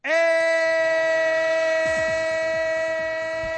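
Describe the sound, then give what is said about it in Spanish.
Train sound effect: a loud, sustained multi-tone train horn blares through the whole clip and fades slightly, with a low, rhythmic clatter joining underneath partway through. “El tren de Radio Marca, el tren que te sigue contando todo lo que ocurre en el mundo del deporte”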